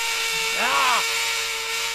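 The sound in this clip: An electric drill, pressed to someone's skull as a prank, gives a brief whining whir whose pitch rises and then falls over a steady hum.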